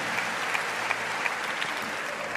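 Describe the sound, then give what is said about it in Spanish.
Congregation applauding in a bilingual church service: steady applause from many hands with a faint regular pulse running through it, even in level from start to finish. “Clap your hand. Aplaude a él.”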